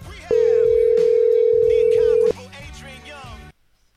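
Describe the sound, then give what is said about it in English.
Telephone dial tone from a dialing machine: a loud, steady single-pitched tone holding for about two seconds, set against other background sound that continues after it stops. “Oh man, that didn't work. Alright, let's try the other dialing machine for a moment.”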